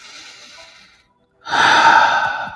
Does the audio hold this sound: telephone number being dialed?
no

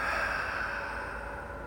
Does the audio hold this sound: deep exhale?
yes

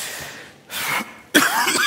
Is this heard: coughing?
yes

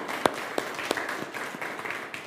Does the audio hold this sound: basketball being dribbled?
no

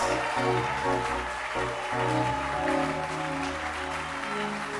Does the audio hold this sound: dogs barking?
no

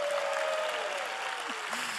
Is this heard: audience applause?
yes

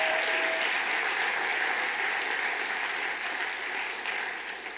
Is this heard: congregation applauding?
yes

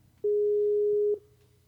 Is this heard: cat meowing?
no

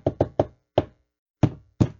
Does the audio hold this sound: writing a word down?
no

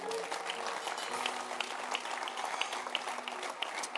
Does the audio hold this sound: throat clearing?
no

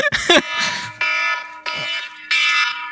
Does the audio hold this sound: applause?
no

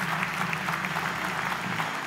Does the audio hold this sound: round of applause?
yes

